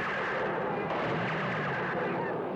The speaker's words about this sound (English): great squib work too. All the shots are pretty believable.